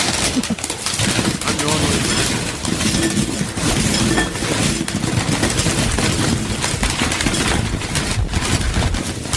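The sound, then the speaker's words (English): Chips poured into a bowl make a dense, crackling, rattling clatter that runs loud and nearly unbroken, like a steady stream of brittle pieces striking one another. “Chips in a bowl. It's the sound of fun on a show.”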